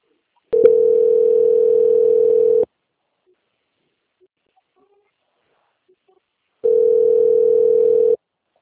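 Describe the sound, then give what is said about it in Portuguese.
A telephone line tone while a call is transferred to another department. It is a flat, steady droning tone in two bursts of about two seconds each, opening with a brief click and separated by several seconds of silence. “Eu vou pedir que a senhora aguarde em linha, que eu vou direcionar a ligação ao setor de qualidade, que dará continuidade à sua contratação”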